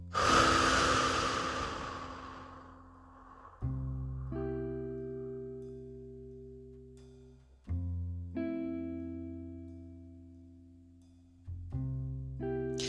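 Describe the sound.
A slow, audible breath opens a guided breathing exercise, lasting about two seconds. Soft, sustained musical chords follow, swelling in three times and fading between entries.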